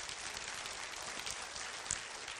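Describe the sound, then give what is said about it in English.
A church audience applauds mothers with soft, steady clapping that runs evenly through the whole clip. “Come on. Can you clap for the moms today?”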